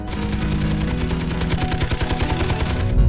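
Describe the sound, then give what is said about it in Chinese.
Rapid machine-gun fire from a robot-mounted gun with automatic tracking and aiming across a 240-degree arc, a loud unbroken stream of many shots lasting about three seconds. “它主要是加载了我们的翻阻机枪，可以在240度范围内自动跟踪、自动瞄准敌人，然后我们在有利时间进行打击。”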